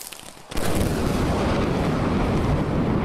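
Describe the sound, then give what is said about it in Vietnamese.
A thunderclap sound effect in a stormy night scene with pouring rain: a sudden loud burst after a short quiet moment, then a deep, heavy rumble that rolls on steadily to the end. “Tiếng sấm nổ như động trời, ánh chớp giật liên hồi”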